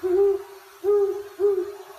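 An owl hoots three times at a steady, unhurried pace: low, round, clear calls separated by short pauses, with no other sounds.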